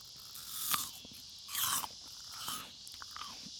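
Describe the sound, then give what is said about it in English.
Crunchy food being chewed by a person: a few crisp, sharp crunches and bites at irregular intervals, quiet and with no talk. “So if y'all don't like hearing fucks and people chew, tune it out now. It's too late. Explicit. Crunching. Yes. Tune it out now. It's too late because I've already done both of these things.”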